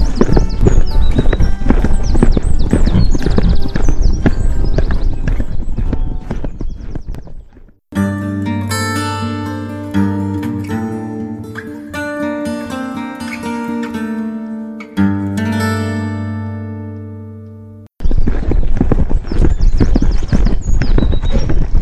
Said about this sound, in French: au galop!